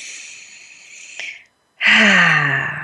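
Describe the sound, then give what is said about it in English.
A slow, deep breath in, a soft airy hiss lasting over a second. A short pause follows, then a louder, voiced breath out like a sigh. “Let's just breathe that in together for a moment.”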